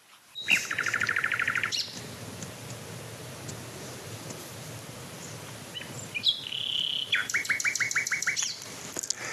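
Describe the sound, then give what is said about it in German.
A nightingale sings two separate phrases of fast, repeated high notes, with a quiet stretch of faint background between them; the song is fairly soft overall. “Ja, früher habe ich immer gesagt, dass die Nachtigall nicht so einen besonderen Gesang hat im Vergleich zu, aber wenn ich ehrlich bin, also welcher Vogel ist schon vergleichbar mit einem anderen Vogel?”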